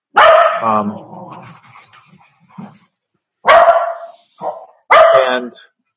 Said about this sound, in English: I'll back up and say it again since the dogs are barking.